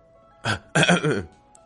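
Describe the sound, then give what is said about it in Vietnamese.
A voice performs two dry coughs that clear the throat: a short first burst, then a longer, rougher second one, with quiet before and after. “ho khan hai tiếng”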